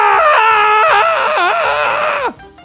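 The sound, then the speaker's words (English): A man screams, one loud sustained scream with a wavering pitch that dips partway through and drops sharply at the end, then cuts off into near silence. “When I saw this, I screamed.”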